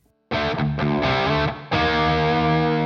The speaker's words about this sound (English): And here's the same riff dropped down to D.